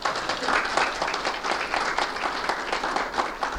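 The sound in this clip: Conference audience applause welcoming a speaker to the stage, a brisk, dense patter of many hands clapping steadily for a few seconds.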